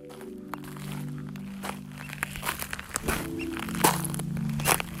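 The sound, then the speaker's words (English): Footsteps walking on Portland Island, across the channel from Juneau, Alaska, with irregular faint crunching steps over a low, steady hum. “right now I'm walking on an island just across the channel from Juneau called Portland Island.”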